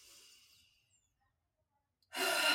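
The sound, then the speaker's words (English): A deep breath drawn in through the nose during a guided sound-healing breathing exercise: a faint breath trails off, near silence follows, then a loud, airy rush of breath at the end. “Okay, let's do that again. Breathe in through the nose”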